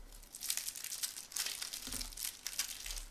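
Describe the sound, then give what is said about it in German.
Faint, continuous crinkling and rustling as semi-transparent candy wrappers are unwrapped, with small irregular bursts of crackle throughout. “Ausgepackt, geradezu nackig liegen unsere kleinen Bonbons nun vor uns und es sind schon gewisse Unterschiede feststellbar.”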